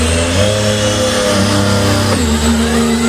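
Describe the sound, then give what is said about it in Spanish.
Engine of a Ferrari racing car, a loud, steady drone carrying strong harmonic tones that shift briefly about two-thirds of the way through, then hold steady again. “a ver cómo suenan los Ferrari por Madrid”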